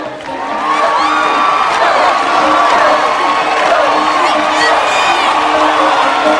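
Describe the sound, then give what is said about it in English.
A crowd cheers at a baseball stadium as a woman crosses the field to the pitcher's mound. The roar swells in the first moment, then holds loud and continuous with whoops and shouts. “Crossing the field, she waves at the cheering crowd and goes to stand on the pitcher's mound.”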